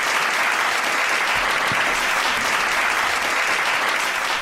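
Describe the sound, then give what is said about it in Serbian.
An audience gives a guest a round of enthusiastic applause during a radio show. The dense, steady clapping is loud and unbroken from start to finish, with no talk over it. “daj aplauz, čekaj, ovo je za aplauz.”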